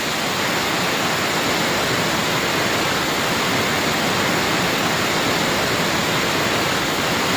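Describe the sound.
Waterfall swollen after heavy rains: a steady, loud roar of falling water that runs unbroken from start to finish, with no other sounds.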